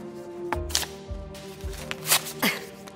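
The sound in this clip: Thick cards being torn up, heard as a few sharp, papery ripping bursts spaced apart, with faint steady tones in the background.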